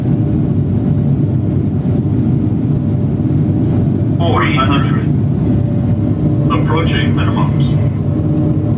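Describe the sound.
A Boeing 737 jet in a flight simulator, preparing for landing, gives off a steady low engine drone that runs throughout. Two short bursts of voice rise briefly over the drone midway through.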